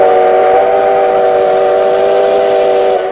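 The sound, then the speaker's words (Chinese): A train whistle sounds steadily from a train making a brief stop at a busy station. The loud, sustained tone holds an even pitch for about three seconds and eases off slightly only at the very end. “各旅客请注意，列车只停两分钟。今天上下车的人多，请大家抓紧时间注意安全。”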